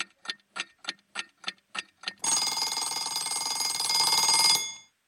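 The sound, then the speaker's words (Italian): Alarm clock of a 30-second timer: eight evenly spaced, crisp ticks, then a loud, continuous bright ringing that holds steady for about two seconds before cutting off. “voi avete il tempo fino a che suona la sveglia dei 30 secondi”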